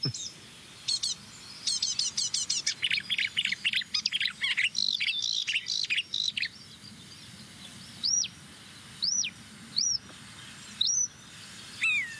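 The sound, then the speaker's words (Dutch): Great tit and a fledgling great tit calling, with quick bursts of high, thin chirps and trills, then a few separate sharp high notes spaced a second or so apart, all faint. “Koolmees en een uitgevlogen jong van een koolmees.”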